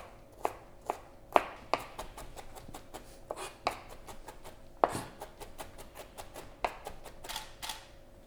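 A knife minces ginger on a cutting board, producing many quick, fairly faint chopping taps in an uneven rhythm, with a few sharper strikes standing out among the lighter ones.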